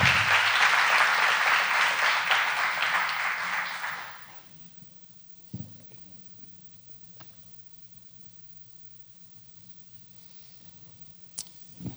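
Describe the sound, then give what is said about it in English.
Applause from a church audience welcoming guests at Christ Church, brisk clapping for about four seconds that fades away into near silence, broken by a few faint knocks and shuffles. “Will you put your hands together and welcome Bill and Dolores Rattay to Christ Church?”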